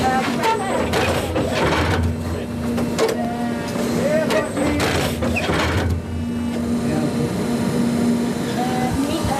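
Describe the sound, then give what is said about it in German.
Steady mechanical whirring and humming from an Italian specialist firm's stitching vehicle inserting fibres into stadium turf, a continuous drone running beneath talking. “So lange fährt das Stichfahrzeug der italienischen Spezialfirma 24 Stunden am Tag hin und her, bis alle Fasern gesetzt sind.”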